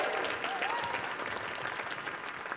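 Audience applause celebrating a new fiction book at an evening event: dense, steady clapping from a crowd that holds at an even level for the whole stretch without breaking off.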